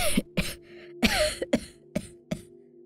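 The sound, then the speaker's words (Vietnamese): A sick woman, clutching her chest, coughs in a long fit: six hoarse, fairly faint bursts come at uneven intervals, some with a rough voiced edge, and no talk comes between them. “Nói xong bà lại ôm ngực ho lên một tràng dài.”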